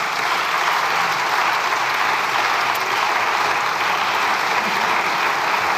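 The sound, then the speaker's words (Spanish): Applause from the Socialist benches in a parliamentary chamber, a sustained, dense clapping that stays level and loud for about six seconds without a break. “aplaudiments de la bancada socialista.”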